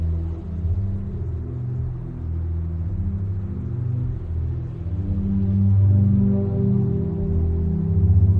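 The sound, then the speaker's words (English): Low engine rumble from a sheriff's truck driving down a road at night. The deep drone is steady and continuous and grows slightly louder toward the end. “At night, the sheriff's truck makes its way down the road.”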